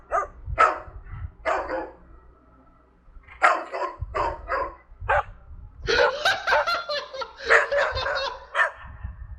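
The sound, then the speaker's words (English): A human voice imitates a dog barking, giving a run of short, harsh bark-like yelps in uneven bursts, with laughter mixed in among them. “God damn it, Moldy bark. That's scary.”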